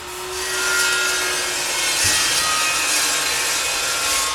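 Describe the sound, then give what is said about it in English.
Continuous rasping scrape as a mason clears excess cement from a newly laid brick wall. The steady, gritty rubbing runs through the whole clip at an even level. “A mason scrapes the extra cement from a newly laid brick wall.”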